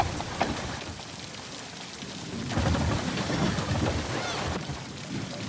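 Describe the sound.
Steady rain falls and patters in a film scene, a dense, even hiss that swells noticeably louder partway through and stays heavy to the end, with no voices.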